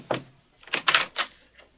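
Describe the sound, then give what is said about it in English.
Knocking on the door of a small, familiar cabin: a few sharp wooden raps in an uneven cluster, with a quieter final knock trailing after a short pause. “When George reached Neosho, he walked up to a certain familiar little cabin and knocked”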